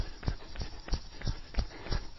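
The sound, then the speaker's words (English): Rhythmic footfalls of high knees running in place on the tips of the toes and balls of the feet, six quick soft thuds at an even, brisk pace. “We're going to go straight into high knees today. High knees, thighs up. Knees up, thighs parallel to the ground, tips of the toes, balls of the feet.”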